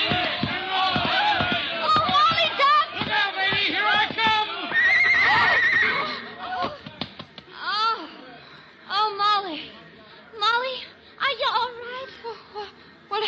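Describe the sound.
A horse with a rider whinnies, a high shrill neigh rising out of busy background noise, while voices talk before and after it.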